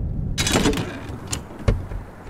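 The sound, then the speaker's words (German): A shed door is opened with a rustling, scraping noise followed by a short knock, fairly faint. “öffnet einen Verschlag und holt eine Axt und eine Kettensäge heraus.”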